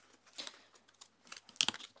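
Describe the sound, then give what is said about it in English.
A deck of tarot cards is shuffled in irregular papery flicks and light taps, with a denser, sharper burst of card snaps near the end. “Yes, I do have a deck of tarot cards with me.”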